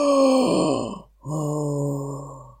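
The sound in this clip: A voice imitates a bear yawning twice: two drawn-out, low groaning yawns separated by a short pause. The first bends downward partway through, and the second holds a steadier low tone, with no other sounds.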